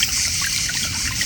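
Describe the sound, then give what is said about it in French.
A fountain murmurs on a summer afternoon in Provence, a soft, steady trickle and splash of water that runs on evenly and alone for about a second. “tout près du murmure de la fontaine.”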